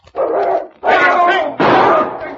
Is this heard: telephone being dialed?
no